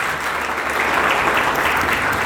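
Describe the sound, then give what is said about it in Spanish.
Steady audience applause during a sermon: dense, unbroken clapping at a loud, even level throughout, with no single voice standing out. “Denle un aplauso a Cristo Jesús, por favor.”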